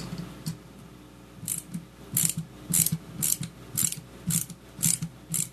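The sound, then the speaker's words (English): A plastic part being twisted and tightened makes loud ratcheting clicks. Rapid bursts repeat in a steady rhythm, with short pauses between turns and no talk over them. “Twist the plastic thing. Oh, I got it. You're going the wrong way. I got it.”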